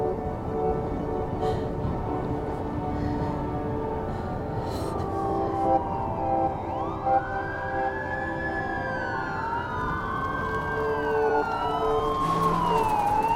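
A wailing siren, presumably police, rises in a tense film scene: slow rising and falling sweeps enter midway and swell louder toward the end over a steady low droning background, with no talk.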